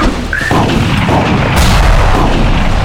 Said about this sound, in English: Ducking out of their sight, I lobbed a grenade.